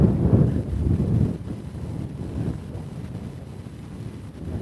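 Cold wind blowing from the southeast across a neighborhood on a roughly 50-degree day buffets the microphone with a deep, rumbling roar, heavier over the first second or so, then a steadier gusty rush to the end.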